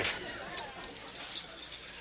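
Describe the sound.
Car keys jangling as they are handed over as a surprise: a bright metallic chink followed by lighter scattered clinks and rattles, with people talking around them.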